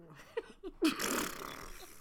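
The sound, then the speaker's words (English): A fart imitated with the mouth: a loud, buzzy lip raspberry that lasts about a second, following a few brief soft vocal sounds. “did you just fart in front of your spouse? From my mouth, yes.”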